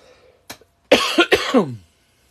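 A person coughs in a short, harsh burst of a few rough coughs following a faint throat sound, then goes quiet.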